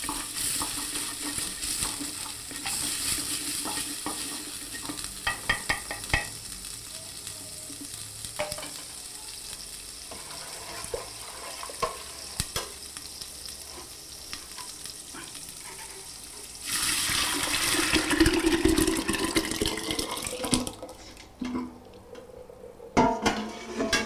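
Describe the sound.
A spoon stirs a thickening mixture in a cooking pot, with a constant bubbling sizzle, scattered clinks of the utensil against the pot, and a louder, harsher stretch of sizzling near the end.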